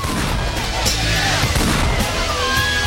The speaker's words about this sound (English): Eric draws his pistol and pumps several rounds into 82.